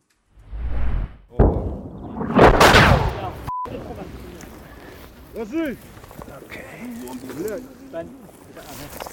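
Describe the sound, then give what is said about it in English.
Incoming artillery shells exploding near a news crew and their vehicles in southern Ukraine, south of Mykolaiv: a few loud booming blasts with long rumbling tails, then agitated voices calling out over lower background noise. “Their vehicles were damaged significantly by incoming artillery rounds. Watch for yourself.”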